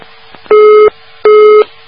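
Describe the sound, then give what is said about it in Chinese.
A telephone busy tone sounds after a call is hung up: two long, loud beeps at a steady pitch, separated by a short gap and heard alone. “怎么嘟嘟嘟了？哎呀，真可惜，电话挂断了。”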